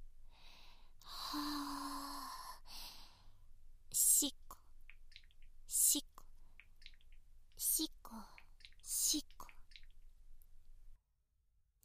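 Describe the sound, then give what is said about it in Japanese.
Slow, deep breathing: a few soft, breathy rushes of air spaced a couple of seconds apart, each swelling briefly and fading, with no talking over them. “深呼吸深呼吸思いっきり”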